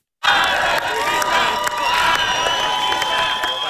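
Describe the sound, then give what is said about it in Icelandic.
A large crowd cheers and shouts outside the Hungarian parliament building as the new prime minister arrives for his inauguration. The roar is loud and continuous, with no break, and a few sharp whistle-like tones rise above the mass of voices. “Magyar var vel fagnað þegar hann kom í ungverska þingi í morgun. Nokkur fjöldi safnaðist saman fyrir utan þinghúsi”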